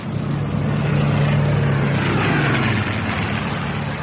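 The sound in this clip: A boat races along a line of rocks, its engine a loud, steady low drone with a constant hum that holds evenly from start to finish.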